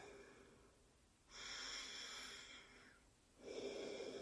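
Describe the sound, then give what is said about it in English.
Slow, faint breathing during a pranayama exercise: a long airy breath, a quiet pause, then the start of another breath. “So, let's try this together, shall we? Breathe in and out normally.”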